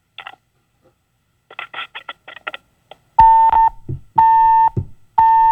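A dropped phone call-in line: faint crackly blips, then three loud, steady disconnect beeps at even intervals of about a second.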